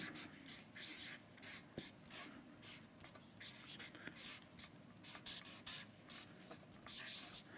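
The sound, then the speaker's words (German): Hand-drawing and writing strokes as someone draws a rectangle meant as a picture frame and then writes inside it: a steady run of quick, soft scratching strokes, faint and nearly continuous. “Ich tue auch wieder etwas malen. Diesmal ein Rechteck.”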